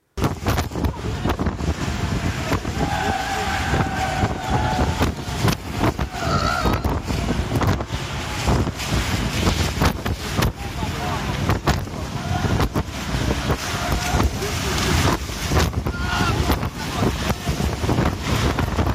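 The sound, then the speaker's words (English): Strong, fierce wind blowing over the sea near Cape Town, roaring continuously and buffeting the microphone, with rushing surf and waves churning beneath the gusts. “So you can see what the wind was like. Now, it wasn't like that when we went out on the water, thankfully, but it was fierce.”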